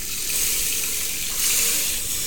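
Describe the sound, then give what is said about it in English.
Pouring liquid as eight cups of vegetable stock go into a soup pot already holding rice and dandelion greens: a steady, full splashing rush that holds evenly for about two seconds, swelling slightly partway through, with no voices. “So we'll put those dandelion greens in now, add in our rice. And we're going to add all 8 cups of our vegetable stock.”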